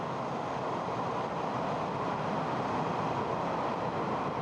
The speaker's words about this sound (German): Weiter unterwegs nun wieder Richtung Norden. Mit der Bahn.